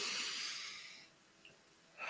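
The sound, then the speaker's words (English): A deep, centering breath drawn by a person: a long, breathy hiss that fades out over about a second, then a quiet pause before another breath starts at the very end. “I feel like I need to do like a centering, like deep breath.”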